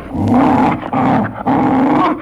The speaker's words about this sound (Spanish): Pero el perro del repartidor, que había estado olfateando al posadero, en cuanto vio al hombre, se agitó nervioso.